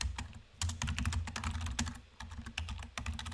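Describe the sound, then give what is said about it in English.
Computer keyboard typing as a search is entered into Google, with rapid, irregular key clicks in short bursts and brief pauses. No voices are heard. “So if we go to Google and we type in,”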